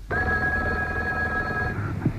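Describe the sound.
A telephone rings once with a steady, high electronic trill that holds for nearly two seconds and then cuts off, leaving quiet behind it. No voices are heard.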